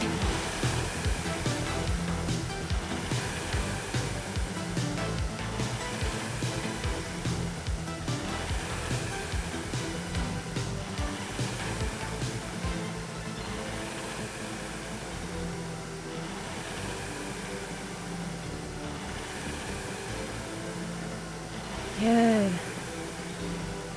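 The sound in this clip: The flywheel of a Concept2 RowErg rowing machine whooshes through repeated strokes, a continuous rushing air roar that surges and eases, with a voice talking over it.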